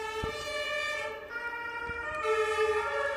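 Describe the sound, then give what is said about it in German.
An ambulance siren passes on a busy four-lane street, a loud, steady, harmonic wail that holds throughout and grows slightly louder toward the end, with faint traffic rumble underneath. “Jetzt müssen wir mal kurz hier den Rettungswagen durchlassen”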